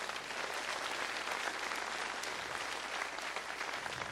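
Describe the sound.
Audience applause, a dense, even wash of clapping from many hands that holds steady from start to finish.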